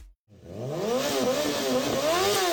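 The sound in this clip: A motorcycle engine revs, its loud buzzing pitch climbing and dropping in a few surges after a brief silent start, with no voices.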